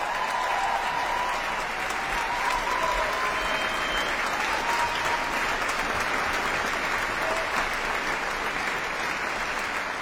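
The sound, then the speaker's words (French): Enthusiastic audience applause in Victoria Hall, Geneva, after Luciano Berio's Coro at the Festival Archipel, a sustained, dense clapping that keeps an even level for the whole stretch. “Nous quittons le public en délire, public du Victoria Hall qui a accueilli ce coro de Luciano Berio”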